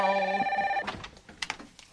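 A telephone rings once in a bright, trilling tone lasting under a second, followed by quieter scattered noises.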